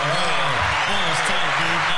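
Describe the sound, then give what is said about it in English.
A round of applause breaks out for a contestant who guessed right in a party game. A steady wash of clapping runs throughout beneath overlapping voices. “Give him the round of applause.”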